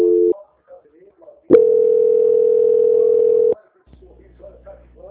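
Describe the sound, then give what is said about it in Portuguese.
A telephone tone plays while a call is being transferred: a brief steady tone, a pause with faint voices, then one long unbroken tone of about two seconds, followed by more faint talk. “agora eu vou estar transferindo a senhora para o controle de qualidade, que vai dar continuidade à sua contratação, tá bem? Só um minuto, por favor. Transferência.”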